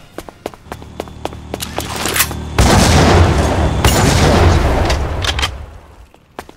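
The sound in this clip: Video game weapon firing projectiles: a run of sharp, short shots in quick succession, then a loud, sustained booming blast that rumbles for several seconds before fading.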